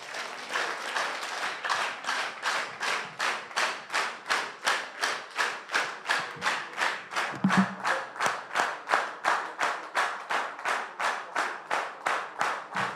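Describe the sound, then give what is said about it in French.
A church audience claps hands in unison in acclamation of the Lord, many crisp claps in a steady, fast, even rhythm that holds at moderate loudness throughout. “On va acclamer le main 58 fois et puis on s'assoit.”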